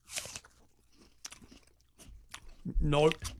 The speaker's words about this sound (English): So what I want you to do is pick up your apple. Apple and salt. This should taste like French fries.